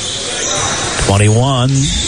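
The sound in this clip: Basketball dribbling during a high school girls' game, repeated bounces running beneath a voice that talks over the court noise.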